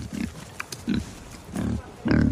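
A pig grunts, a backyard farmyard animal kept behind a family home alongside chickens. Several low, rough grunts come in short bursts with brief pauses between them, fairly faint.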